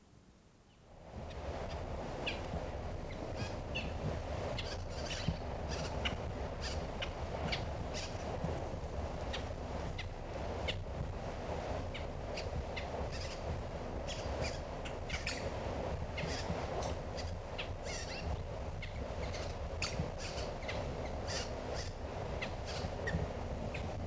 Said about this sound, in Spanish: Es un cacique candela, especie muy amenazada por la extinción. Tiene su nido en la mata de monte, con pichones.